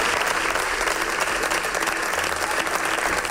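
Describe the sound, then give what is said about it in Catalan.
Dense, sustained applause as the opposition stands in an ovation in the Valencian parliament chamber, loud and steady throughout with no pause. “en què l'oposició dempeus ovaciona les associacions de víctimes de la Dana presents al Parlament Valencià.”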